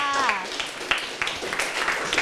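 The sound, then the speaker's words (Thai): Classroom students clap for a classmate. Scattered, uneven hand claps follow a brief voice at the start and continue at moderate volume. “เยี่ยมมากค่ะปรบมือให้เพื่อนค่ะ”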